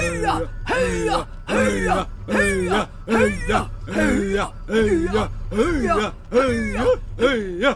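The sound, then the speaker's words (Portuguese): Inuit throat singing performed in a dubbed scene from The Simpsons Movie, with many rhythmic, guttural vocal pulses on an even beat, each with a wavering, buzzing tone, repeated alone throughout. “Vamos purificar o seu espírito com a antiga arte esquimó inuit da música da garganta.”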